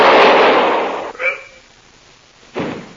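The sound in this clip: Gunfire during a hold-up: a loud, noisy blast opens, a faint brief sound follows, and then a sharp second burst near the end.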